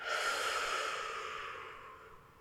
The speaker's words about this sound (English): We're going to inhale, right? Here we go. And release.